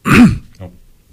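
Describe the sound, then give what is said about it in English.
A person clears their throat once with a loud, rough, gravelly rasp, followed by a softer short grunt as it trails off. “sorry for clearing my throat on you guys.”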